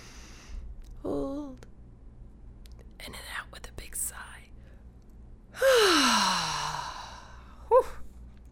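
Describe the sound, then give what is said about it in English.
Breathing during a guided grounding and relaxation exercise: a few soft, breathy inhales and whispery sounds, then a long, loud voiced sigh whose pitch falls, and one last short breath. “Breathe in nice and deep this time.”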